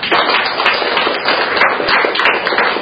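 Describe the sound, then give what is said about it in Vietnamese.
A church audience claps to celebrate the feast of Saint Mary Magdalene. The loud clapping is dense and uneven, with a dull, muffled tone and no voices over it. “Chúng ta cùng một tràng hoan hô thật lớn để chúc mừng những Maria Magdalena.”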